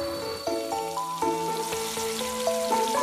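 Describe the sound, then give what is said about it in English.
Food frying in the kitchen gives off a steady sizzling hiss beneath clear, tuned musical notes. “Hey, mommy, my wife is cooking something delicious.”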